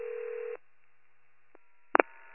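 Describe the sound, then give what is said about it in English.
Ringback tone on a callback to a landline after an abandoned 911 hang-up: a faint electronic ringing tone stops, a silent gap follows, and then another ring burst begins. “Attempting to call back now, but the line just keeps ringing right now.”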